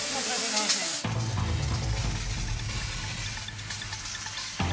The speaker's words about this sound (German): Wir müssen jetzt erstmal hier massiv Wasser draufhalten. Wir brennen massiv Unrat.